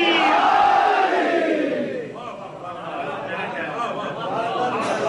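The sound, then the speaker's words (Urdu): A crowd at a religious gathering chants the slogan Naara-e-Haidari with raised hands, many voices shouting loudly in unison with a falling pitch, then easing into a softer, murmuring crowd din. “لگا دیجئے دونوں ہاتھوں کو بلند کر کے نعرہ حیدری.”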